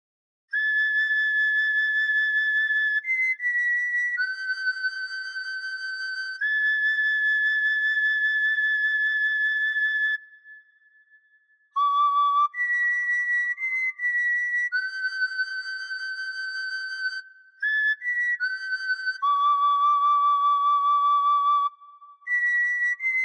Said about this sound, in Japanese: この草なんですけど、こういう風に口に当てると、